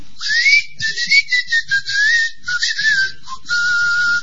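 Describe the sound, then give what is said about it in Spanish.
A person whistling upward, imitating the whistling of snakes: a string of short, loud whistled phrases with a wavering, gliding pitch and brief gaps between them, heard alone without talk. “Producían un huevo y lo sostenían en el aire emitiendo silbidos. Chiflaban para arriba a la serpiente”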